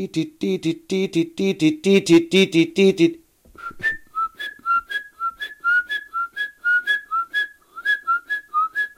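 A great tit sings its rhythmic song: many clear, piercing two-note phrases repeated in a steady, regular beat, loud and alone after a denser, buzzier passage at the start.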